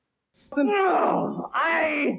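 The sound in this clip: Grunting and groaning come as two long, drawn-out vocal moans separated by a brief pause. Each is loud and sounds alone, sliding gradually downward in pitch.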